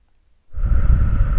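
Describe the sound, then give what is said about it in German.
One deep breath drawn in through the nose during a guided breathing exercise. A steady, loud rush of airflow starts after a short silence and carries on to the end. “Und dann machst du die Augen zu und atmest einmal tief durch die Nase ein”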